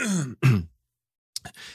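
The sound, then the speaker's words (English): A brief cough with throat clearing: two short voiced bursts, a pause, then a quieter breathy rasp. “I'm sorry, I got distracted there because I coughed.”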